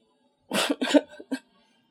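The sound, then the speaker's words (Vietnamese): A woman's loud dry cough: a quick burst of a few harsh, rasping coughs with no other sound around them. “Cô vừa nghe tới từ nhạy cảm, lập tức lớn tiếng ho khan.”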